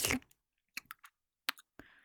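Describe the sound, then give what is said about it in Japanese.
Soft, wet mouth sounds of someone chewing food: a few faint, sparse clicks and squishes with short pauses between them. “食べ物をよく噛んでるだけ。”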